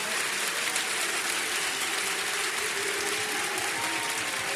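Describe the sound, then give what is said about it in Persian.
An audience at a religious gathering claps the Heydari clap, a dense, steady wash of many hands striking together that keeps an even loudness throughout, with no voices standing out. “یک کف حیدری بزن، کف حیدری گفتم، دست بیاد بالا”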